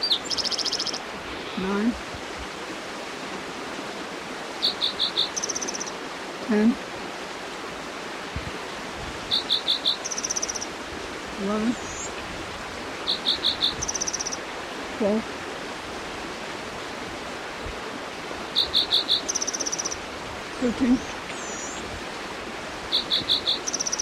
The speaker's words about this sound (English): Creek noise in the background.